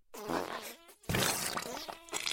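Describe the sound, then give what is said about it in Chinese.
Farting noises come in two long, buzzy, sputtering bursts separated by a brief pause. The second burst is louder and rougher, with no talking. “这又放屁又拉屎的，人家好害羞啊！”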